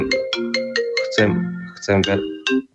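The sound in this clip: A mobile phone ringtone plays a quick run of bright electronic notes, then a few more tones after a brief pause, clear and fairly loud.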